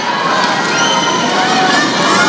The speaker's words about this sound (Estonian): Mõnusat lärmi on kuulata kodupubliku puhul, sest vette lähebki Prantsusmaa võistkond.